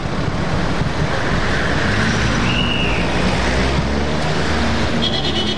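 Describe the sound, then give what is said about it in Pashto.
Cars passing in street traffic at a signal: a loud, steady roar of engines and road noise with no clear gaps. “د بهرینانو موټر خو دغه د تیر شول، حرکت به وکړو.”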